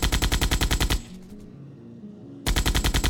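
Rapid automatic gunfire from soldiers shooting on command, in two loud, evenly spaced bursts of sharp shots separated by a pause of just over a second with low rumble.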